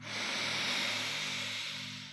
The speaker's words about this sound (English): Take a deep breath in with me now.